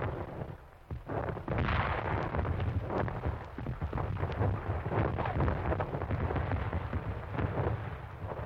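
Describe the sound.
Missile explosions and a blast wave boom in a heavy, continuous roar, with repeated loud blasts rolling over one another and no pauses or voices.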